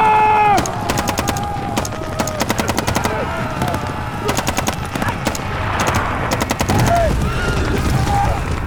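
Gunfire from guns during a mounted battle: many loud, rapid bursts of shots crackle in quick succession, with short gaps between volleys and a steady rumble underneath.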